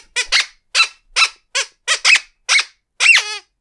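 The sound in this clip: Squeaky fanfare sound effect played in place of a drum roll: a quick run of short, high, toy-like squeaks of similar loudness, ending on one longer squeak.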